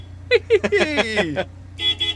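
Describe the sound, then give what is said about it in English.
A horn toots on a big yellow digging machine, a short, bright, steady blast near the end that follows some talk between people. “can I toot the horn? Of course you can. It's that one there.”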